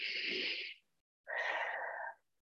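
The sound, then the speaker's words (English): Deep breathing during a relaxation exercise, one long airy inhale followed after a brief pause by a longer, breathy exhale out through the mouth, both hissing and steady with no talk. “I'm inhaling and releasing through my breath out of my mouth.”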